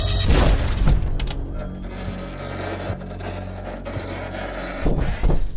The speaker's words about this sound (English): A bloody Paul is thrown in through the rear window.